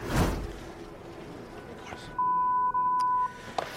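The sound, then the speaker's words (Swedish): A censor bleep covers a swear word on a US television slap-fighting broadcast: a steady, mid-pitched electronic tone held for about a second with one brief break, rising out of low background noise. “Ja, alltså det är ju peak USA, att det är jävligt lugnt att slå varandra på tv medvetslösa men att de har blipat när någon säger fuck.”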